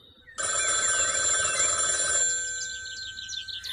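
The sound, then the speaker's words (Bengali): A telephone bell rings in one steady, loud burst of about two seconds, then its ringing tone fades away. “এমন সময় telephone বেঁচে উঠল”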